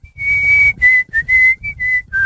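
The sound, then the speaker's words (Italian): A person whistles a melody in a studio: a quick string of about seven clear, high notes, some held and some short, loud and alone with no talk over it. “È entrato in studio il nostro re del fischio, presentati con un fischio, come c'è Alvaro Vitali.”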